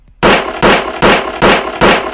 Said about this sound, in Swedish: För nu så går skotten väldigt snabb takt här när han skjuter.